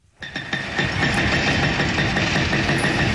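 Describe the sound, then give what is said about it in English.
Heavy machinery demolishes a house on a hillside beneath Jerusalem's walled old city, a loud, steady engine drone with rumbling and rattling vibration that starts abruptly and holds throughout. “Hillside beneath Jerusalem's walled old city, I watch a Palestinian house being torn down.”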